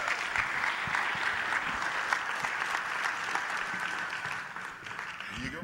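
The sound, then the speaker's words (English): Sustained audience applause welcomes a pastor to the stage at Calvary Church, a dense, steady wash of clapping that holds at an even loudness for the whole stretch. “So put your hands together one more time and welcome Pastor Gerald Kendrick to the stage.”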